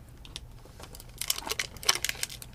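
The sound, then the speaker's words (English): Packing tape being peeled off a toy package, heard as a run of crackly, crinkling tearing bursts that grow denser toward the end, faint overall. “Yeah, I'm struggling to get through the tape. I peeled it.”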